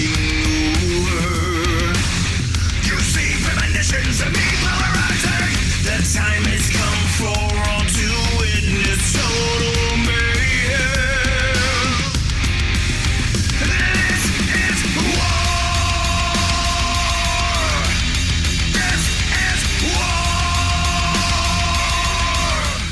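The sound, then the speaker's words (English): A heavy metal wrestling entrance theme blasts with crushing distorted guitar riffs and screamed vocals, dense and loud without a break throughout. “No, you're getting crushing riffs and screaming vocals.”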